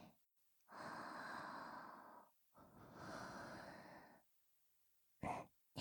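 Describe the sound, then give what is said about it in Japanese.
Slow, deliberate human breathing: two long, airy breaths in and out, soft and quiet, followed by a couple of quick, short breaths. “まずは二人で呼吸を合わせる。吸って吐いて、”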